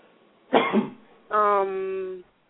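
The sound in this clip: A single harsh cough is followed by a drawn-out, voiced throat-clearing sound, each clear against near silence.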